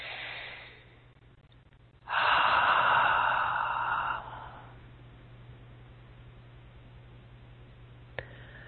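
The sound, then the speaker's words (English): One long, deep breath is taken during a guided meditation. It is a loud airy rush lasting about two seconds, followed by softer breathing over a low steady hum. “And let's take some nice deep breaths,”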